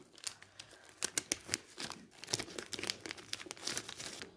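Faint crinkling and crackling as a panda-shaped Japanese biscuit is cut and torn in half, many sharp, irregular crackles and small snaps in quick bursts.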